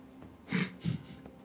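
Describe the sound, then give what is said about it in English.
A character snorts in the game: two short, forceful nasal snorts about a third of a second apart, loud bursts over a quiet background. “Snort in character, too.”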